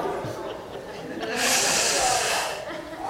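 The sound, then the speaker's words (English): A deep cleansing breath, a long hissing exhale that swells in the middle for about a second and then fades, over a quiet background. “cleansing breath. We got time. We got time, at least, to take a deep breath.”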